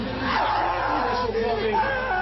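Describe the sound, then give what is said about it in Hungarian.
A crowd of newly admitted university students screams and shrieks in celebration of their admission results. The dense, continuous, loud wall of overlapping high-pitched shrieks and cries lasts throughout. “Üvöltés, nevetés, visongás, mindenki a maga módján ünnepelte a sikert.”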